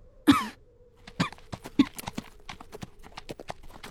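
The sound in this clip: A weary, pale man coughs quietly a few times, low and brief, over steady clip-clop of horse hooves.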